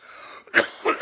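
A few harsh, breathy coughs or throat-clearing bursts come in quick succession after a short, quieter stretch.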